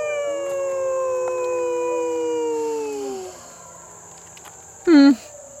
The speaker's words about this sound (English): The Endangered Wolf Center has all sorts of tours and events, including the wolf howl that you just heard